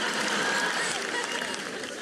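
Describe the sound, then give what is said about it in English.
Audience clapping in a dense, steady wash with crowd noise mixed in, holding at an even level for the whole stretch before easing slightly at the end. “Let's clap for bullying.”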